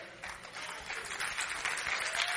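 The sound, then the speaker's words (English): Clapping from a sermon audience, mostly women: a dense, hissing wash of many hands that builds slightly louder toward the end, with no distinct individual claps. “Now, ain't nobody clapping but women.”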